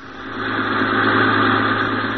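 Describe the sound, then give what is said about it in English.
A sightseeing bus engine runs steadily on a free city tour, giving a continuous mid-pitched drone with a rough vibrating texture. It swells slightly at first and then holds at a steady, fairly loud level with no talk. “board one of these buses as it makes its way around our glamorous town.”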